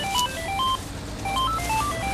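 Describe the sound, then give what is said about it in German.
A mobile phone ringtone: a quick melody of bright electronic beeps, played through twice over a constant background hiss. “Es beginnt alles damit, dass Lonas Handy klingelt.”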